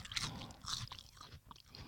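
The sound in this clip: Crunching and chewing of a crunchy dried plant snack: faint, dry, irregular crackling bites that come in a steady run.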